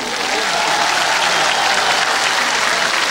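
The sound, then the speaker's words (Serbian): Loud, dense applause from a large crowd at a music event, a continuous, even roar of clapping that holds steady for the whole clip without a break. “Zaista veliki aplauz, to dovoljno govori.”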